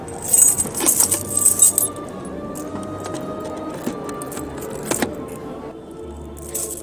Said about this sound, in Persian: اجازه میدی من یه بررسی کنم ببینم قفلات قلابی نباشه؟ همه رو باید امتحان کنم. شروع کنیم.